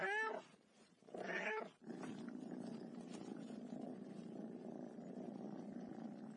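A furry house cat gives two drawn-out meows, then settles into a steady, low, continuous purr that lasts to the end.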